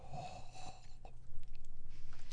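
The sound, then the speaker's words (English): Heavy, raspy breathing after drinking whiskey: faint, wheezy inhales and exhales that settle into a steady rhythmic pulsing in the second half. “That was me breathing, by the way.”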